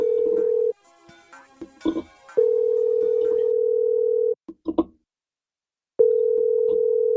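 A telephone dial tone sounds after the redial button is pressed. The steady mid-pitched tone plays in three stretches, broken by clicks, handling noises and one short silent gap.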